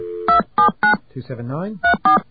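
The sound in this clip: Touch-tone DTMF beeps dialing a payphone number, five short, loud, evenly clipped tones, three in quick succession, then a brief voice, then two more.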